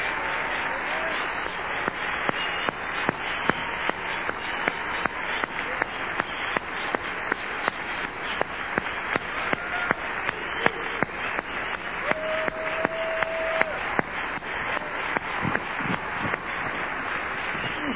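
Sustained audience applause welcoming a couple onto a stage: dense, even clapping that keeps a steady level for the whole stretch.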